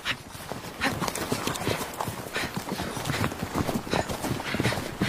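Horse hooves clip-clop steadily as a horse is ridden astride, giving a long, even run of many fairly loud hoof strikes with no pause across the whole stretch.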